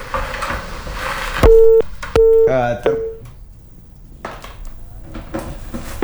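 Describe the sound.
A telephone tone sounds after a WhatsApp call is cut off: a few loud, flat, mid-pitched beeps separated by short gaps. Voices are heard before and after the beeps.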